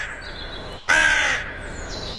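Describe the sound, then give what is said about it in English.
Loud, harsh crow caws, including one long drawn-out call that ends abruptly before another begins, with quieter sound before it and no voices. “the late Graham Kennedy got suspended for 2 weeks for impersonating a crow on live TV. He did. He did. It didn't quite sound like this, did it?”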